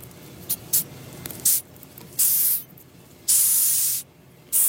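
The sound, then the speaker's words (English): A ten-centimetre Madagascar hissing cockroach hisses in airy bursts: two short puffs, then a longer hiss, followed by two sustained loud hisses, separated by quiet gaps. “That is the sound of a 10-centimetre-long Madagascar hissing cockroach.”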